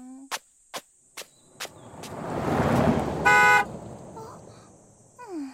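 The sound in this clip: A car drives past with a swelling rush of engine and road noise and gives one short horn toot near its loudest point; a few sharp clicks come before it, with faint chirping in the background.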